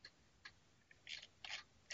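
Computer mouse clicks come as several faint, sharp ticks at irregular intervals, quiet and with no talk over them.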